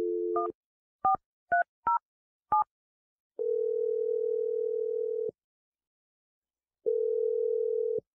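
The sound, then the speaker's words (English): A telephone number is dialed: a steady dial tone, then a quick run of separate keypad beeps, followed by two long ringback tones with a pause between them. “I'm going to dial Sky's number, and we're going to get you a second date update.”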